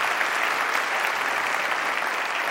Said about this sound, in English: Will you put your hands together and just welcome you.